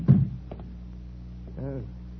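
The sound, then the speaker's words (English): A door being shut lands as one heavy, low thunk right at the start. Then it goes quiet apart from a low hum, and a brief voice appears near the end. “Close the door, knuckle brain. There's a draft in me back.”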